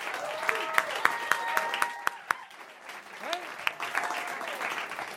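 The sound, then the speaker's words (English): Audience applause for rapper Taylor Bennett at a live radio show, moderately faint clapping with a few sharp claps standing out and several high whistles over it. “Hey, make some noise for Taylor right here. Appreciate you guys for real. Give it up for Taylor Bennett.”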